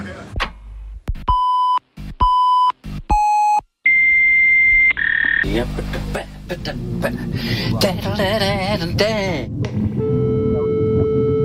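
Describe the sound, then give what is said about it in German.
Electronic beeping from a computer signalling for attention: a few short, steady mid-pitched tones in quick succession, then a longer, higher tone, followed by other sounds and voices. “Da meldet er sich wieder. Das heißt, wenn dieses Geräusch ertönt, dann will der Computer, dass man sich mit ihm befasst.”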